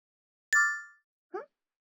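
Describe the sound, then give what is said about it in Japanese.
An app notification chime from the game Princess Connect on a phone: a bright, ringing electronic tone that fades over about half a second, followed by a shorter, lower second blip. “ん？お姫様コネクトの通知か？うん。おお、正月の新イベントじゃな。”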